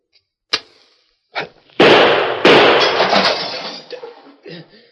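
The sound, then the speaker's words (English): Gunshots shoot a cigar from a hand and break a mirror: a few sharp, separate cracks, then a loud crash whose glassy rattle fades out over several seconds. “Shot the cigar right out of my hand. He snuffed out the match with his other gun. I'm sorry about breaking that mirror over there.”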